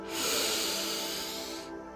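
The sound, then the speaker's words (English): A deep breath, heard as a long, airy rush of air that swells in and holds for about a second and a half, then stops abruptly. “Take a deep breath in”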